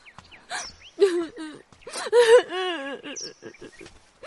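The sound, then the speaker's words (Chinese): A child crying, sobbing with a wavering, whimpering voice in a few uneven bursts, with gasping breaths between them. “孩子，别哭。”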